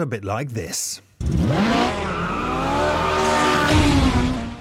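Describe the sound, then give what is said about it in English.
Ferrari sports car engine roaring loudly and steadily, climbing in pitch as it revs, after a voice speaks briefly. “What a noise. The roar. That is surely the most famous sports car engine sound of them all. It is of the Ferrari, of course”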